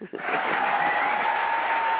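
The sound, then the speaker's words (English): Canned applause from a sound-effect button: a dense, steady wash of clapping that starts abruptly after a brief pause and holds at an even level for about two seconds. “You still get the applause button for that one.”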